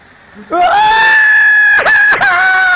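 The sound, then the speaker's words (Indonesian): A voice imitates niyahah, the wailing lament over the dead that is forbidden in Islam: a loud, sustained, high-pitched wail with strong steady harmonics, broken by two brief dips near the end. “Ini niyahah. Ini yang diharamkan dalam Islam.”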